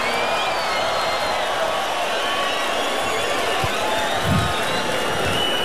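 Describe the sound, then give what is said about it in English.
Huge Tomorrowland festival crowd cheering for a DJ, a dense, continuous roar of cheers and whoops that stays steady in loudness throughout. “So everybody put your hands up in the air and make some noise for John Summit.”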